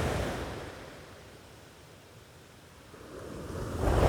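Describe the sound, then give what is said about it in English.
Ocean waves wash onto a sandy beach in a broad, rushing hiss that ebbs through the middle and then surges louder again toward the end, with no voices. “feel your shoulders drop and your feet sink a little deeper into the sand. And as your mind quiets and you listen to the waves”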